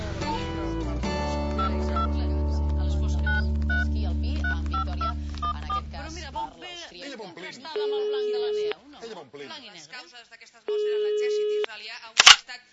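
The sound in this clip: Telephone being dialled to call someone: a steady low dial-tone drone with a quick run of keypad beeps, then two long ringing tones with a voice talking between and around them, ending in a sharp click.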